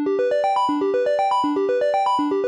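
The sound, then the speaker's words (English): A triangle wave from a Moog synthesizer oscillator plays a clean, soft-edged tone in a quick climbing arpeggio of evenly spaced short notes, the rising pattern repeating several times at a steady, moderate level with no voices. “Oh, and a triangle wave, we should definitely hear what that sounds like. It sounds like this.”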